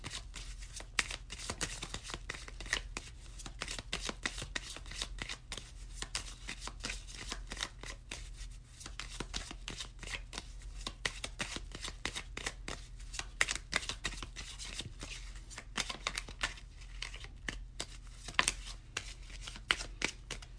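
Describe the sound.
Lenormand cards shuffled during a card reading, a long run of soft, rapid riffling clicks and papery slaps, faint and continuous with no talking.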